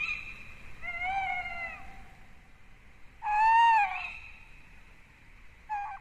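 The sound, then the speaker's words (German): A tawny owl calling: a few faint, drawn-out hooting calls with a quiet gap between them. The middle call is the loudest, and a final call is cut short. “Und da hören wir ihn nochmal, den Waldkauz.”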